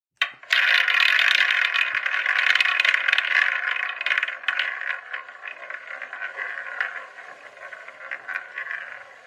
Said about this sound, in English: So, let's spin the wheel.